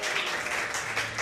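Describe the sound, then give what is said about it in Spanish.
Applause from the audience at a commemorative recognition ceremony, given to a man being honored: a brief, dense burst of steady clapping with no pause, heard alone. “Un aplauso para él también.”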